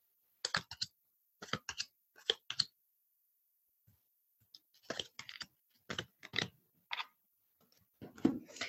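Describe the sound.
Tarot cards laid out on a table after shuffling: short, dry taps and light slaps that come in small clusters, with short pauses between them and no talk.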